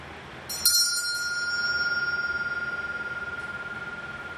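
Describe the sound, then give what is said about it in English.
Bell struck once during a quiet listening exercise, followed by a steady, clear high tone that lingers and slowly fades over several seconds. “Raise your hand quietly when you can no longer hear the sound of the bell.”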